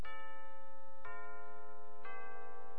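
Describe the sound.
A radio time signal chimes to mark the hour: three evenly spaced, clear bell-like tones, each struck sharply and left ringing until the next.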